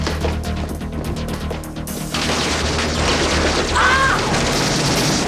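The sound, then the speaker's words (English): Pump-action shotguns blast out a screen door amid gunfire: a rapid run of sharp cracks, then a sudden, loud, sustained roar of crashing noise. “The door blasted out with some pump-action shotguns, but Storm shoots the gunman.”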